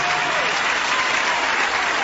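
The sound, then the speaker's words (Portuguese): A church audience clapping their hands in praise makes a dense, steady wash of applause that stays loud and continuous throughout. “Pode louvar a Deus com as palmas, meus irmãos. Louve a Deus com as palmas.”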